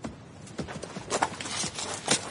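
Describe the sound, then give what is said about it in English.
Hooves of horses clop as riders, dismounted in open country, lead them on foot: a few irregular, moderately loud hoof strikes sounding alone. “Well, we'd better dismount and lead the horses.”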